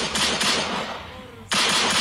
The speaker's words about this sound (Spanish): Y se ganaron ustedes el disparo de la pistolita. Ahí está, ahí está